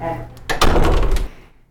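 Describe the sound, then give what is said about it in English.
A pantry door at a food pantry swings shut, giving a light knock and then a solid, heavy thunk with a brief rattle that fades quickly. “So I'll close the pantry door.”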